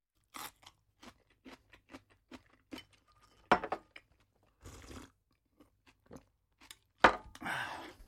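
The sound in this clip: Chewing and crunching as someone eats Japanese food at a home dinner in an apartment: many faint, irregular bites in a quiet room, with a couple of louder crunchy chews standing out near the middle and the end.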